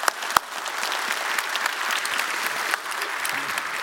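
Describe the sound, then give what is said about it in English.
A church audience applauds to welcome visitors at a service. After one sharp early clap, the dense clapping continues steadily for a few seconds. “Raise your hand and let's give them a big hand.”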